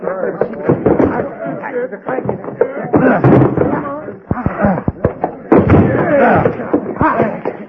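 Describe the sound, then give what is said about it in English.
Hard thuds and bangs of a locked door being forced open in a western drama. Several heavy impacts break through an excited exchange of voices. “What's locked? Stand back. Maybe I can break it open.”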